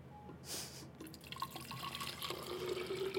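A stream of urine splashes into a hydrangea bush, a faint, continuous trickle of liquid with scattered drips.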